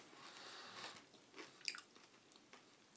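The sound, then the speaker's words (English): A man biting and chewing crunchy pork scratchings, giving a few faint, crisp crunches spread over a quiet, hushed background. “That's the sound of a man eating porch scratches.”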